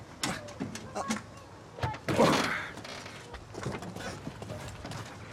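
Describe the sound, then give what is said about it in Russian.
Car lock clicking as a car is unlocked, heard as a string of sharp mechanical clicks and knocks, with a louder rustling burst in the middle. “ты вообще машину открываешь или что другое делаешь? Сейчас, погоди, щелкнет.”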